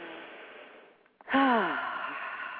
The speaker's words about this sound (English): So now's that time when I invite you to close your eyes and take a deep breath with me.